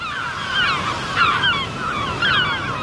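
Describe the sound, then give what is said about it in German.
Seabird cries over the wind on the North Sea coast. A few bursts of high, sharply falling calls rise over a steady, rushing bed of wind or surf noise. “Schön, oder? Das ist der Sound der Nordsee.”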